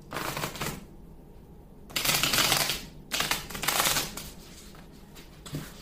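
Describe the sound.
A deck of cards being shuffled for a card reading, riffled in a few quick, fluttering rattling bursts separated by short pauses, fairly soft and with no talk.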